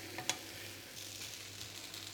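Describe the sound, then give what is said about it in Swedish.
Burgers sizzle on a grill that is still hot: a faint, steady crackling hiss with one sharper pop near the start. “Så fortsätter de att steka lite till eftersom ju värmen fortfarande är på.”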